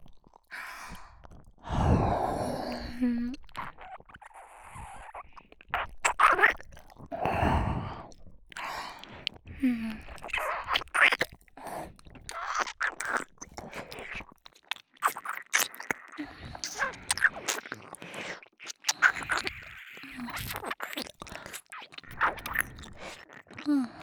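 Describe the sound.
Breathy sighs and wet mouth sounds of nibbling and chewing in an ear-eating ASMR roleplay, soft and close, coming in irregular bursts separated by quiet pauses.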